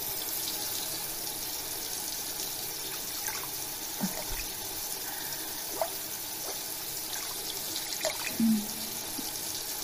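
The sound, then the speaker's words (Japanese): Running water rinses the other side of a person's body during an assisted bath: a steady, soft hiss of flowing water with a few faint splashes and drips, and no talking. “反対側も流します。”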